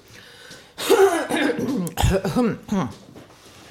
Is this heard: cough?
yes

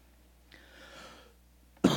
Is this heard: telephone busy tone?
no

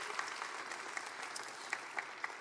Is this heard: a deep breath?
no

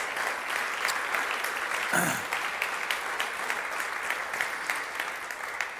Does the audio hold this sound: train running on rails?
no

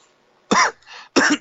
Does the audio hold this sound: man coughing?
yes

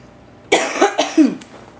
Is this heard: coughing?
yes

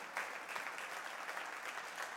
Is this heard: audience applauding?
yes

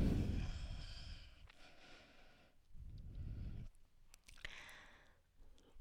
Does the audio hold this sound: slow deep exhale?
yes

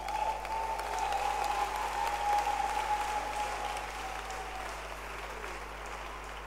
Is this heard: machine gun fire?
no

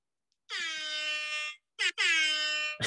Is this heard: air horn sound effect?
yes

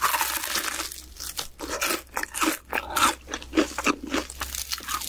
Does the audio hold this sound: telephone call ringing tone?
no

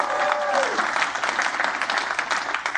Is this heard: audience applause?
yes

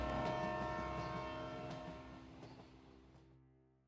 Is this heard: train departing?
yes

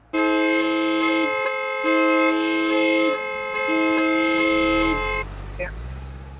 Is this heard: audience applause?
no

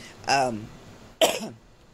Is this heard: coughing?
yes

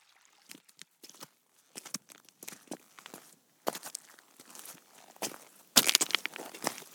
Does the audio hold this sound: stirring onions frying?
no

